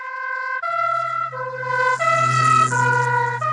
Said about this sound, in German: Was hinter dieser Verschiebung der Wellenlängen steckt, lässt sich am besten anhand eines umgangssprachlich genannten Tatütatas demonstrieren, das an euch vorbeifährt.